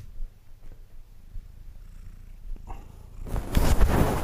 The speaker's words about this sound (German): Na, Mieze? Hallo, Mieze. Hallo, Mieze. Jetzt legt sie sich hin, die Mieze.